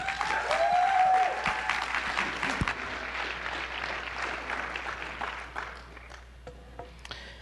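Applause from a church audience welcoming a pastor to the stage: full, dense clapping that is loudest at the start, then gradually thins and fades into scattered claps toward the end.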